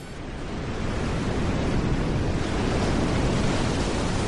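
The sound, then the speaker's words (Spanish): Storm sound effect of crashing waves and wind, a dense, steady roar that swells slightly at the start and then holds loud and unbroken throughout. “Y esto evidentemente es un sonido de tempestad”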